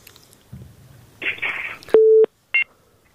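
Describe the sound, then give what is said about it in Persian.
A telephone busy tone follows a dropped phone call: crackly line noise and rustling give way to one steady low beep, then a short higher blip. “فکر کنم که تماسشان قطع شد، یک تماس دیگر میگیریم.”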